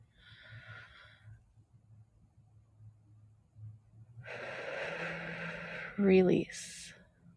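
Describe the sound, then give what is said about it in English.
A deep breath drawn in during a guided relaxation exercise: a soft, airy inhale of a couple of seconds after a quiet stretch, ending in a brief louder breathy sound. “Take a breath in.”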